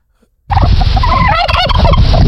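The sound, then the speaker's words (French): A turkey gobbles loudly after a brief silence, a continuous rapid, warbling burst of about two seconds that holds steady to the end. “Un dindon.”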